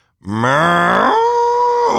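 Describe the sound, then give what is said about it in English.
A person imitating a cow's moo: one loud, sustained lowing call lasting nearly two seconds, its pitch stepping upward midway before holding steady. “I do a pretty good cow impersonation.”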